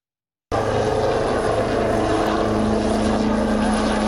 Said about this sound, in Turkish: Gökyüzü önce Gökbey'in pervane sesleriyle yankılandı, Hürkuş ve Hürjet peş peşe havalandı.